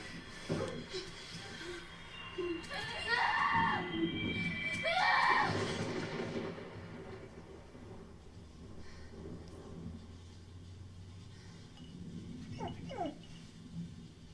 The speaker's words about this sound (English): My dog's pretty upset by this movie. Hey, go lay down. Go lay down. It's okay.